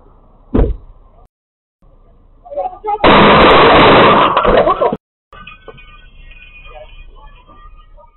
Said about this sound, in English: The police decided to shoot from inside of the car through the window. Like a drive-by shooting.